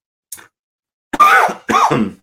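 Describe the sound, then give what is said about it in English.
Someone coughs into a microphone: a faint short catch first, then two loud, harsh coughs in quick succession, with no talk. “sorry for that, coughing into the microphone is never good, right?”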